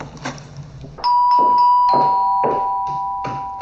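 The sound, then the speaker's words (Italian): Two-tone doorbell chime rung at a front door: a clear ding followed by a lower dong, both ringing out and slowly fading, with a few soft thuds around it. “Aprì il cancello, andò fino alla porta e suonò il campanello.”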